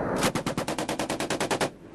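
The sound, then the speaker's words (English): Machine gun fire raking a hillside: a rapid, even string of a dozen or more loud, sharp bursts, then an abrupt stop. “A katonák szerint majd $1 millió költöttek a hegyoldal szétlövésére.”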